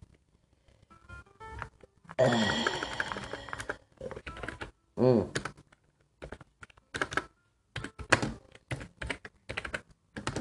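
Computer keyboard typing: a long run of crisp, irregular key clicks in quick bursts, with a few heavier, louder thunks of keys being struck hard and short pauses between runs.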